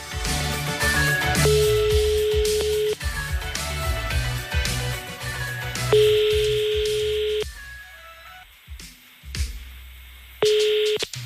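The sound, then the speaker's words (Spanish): Telephone line tones sound after a number is dialed: three long, steady mid-pitched tones, evenly spaced, each rising out of loud background music without any talking. “Marcamos despacito su número y a ver si está por ahí, venga.”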